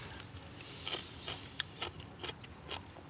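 A crisp radish, fermented in salt for two weeks, is bitten and chewed. Several faint, crackly crunches come at irregular intervals over steady low background noise.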